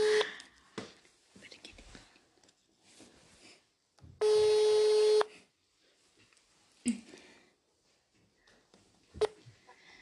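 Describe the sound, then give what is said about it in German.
Telephone tones during a prank call: a loud, steady electronic ringing tone lasts about a second, surrounded by a few short beeps, with quiet whispering and soft voices in between. “sie ruft jetzt äh, Melina an. Los geht's.”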